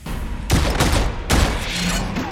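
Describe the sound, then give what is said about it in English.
Gunfire from a movie scene as a gun empties its clip: a loud, dense volley of rapid shots with a brief lull partway through before the firing surges again. “So he's just multiple versions of him are dying, but the characters that's shooting him, the terrorist, is still burning through his clip.”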